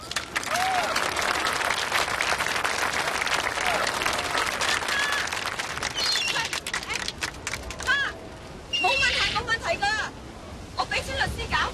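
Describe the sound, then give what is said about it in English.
Sustained audience applause honors a woman who has just received her green card: dense, loud clapping mixed with crowd voices and sharp whistles, continuing throughout with a brief dip before swelling again. “Let's give her a big round of applause.”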